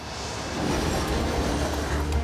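Heavy freight train hauling 10,000 tons of gravel through a slide-prone stretch of track toward Anchorage, a continuous deep rumble with dense rattling that swells slightly and then holds steady, with no other sounds over it.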